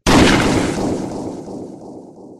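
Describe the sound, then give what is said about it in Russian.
A single loud gunshot from a handgun held to a temple: a sharp, powerful blast at the start, then a long rumbling ring-out that fades slowly, with no voices. “Прозвучал выстрел”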